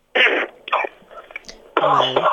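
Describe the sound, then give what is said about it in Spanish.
Someone clears their throat in a few rough, noisy bursts, then a longer voiced rasp. “Según empiezo me da el carraspeo, esto es terrible.”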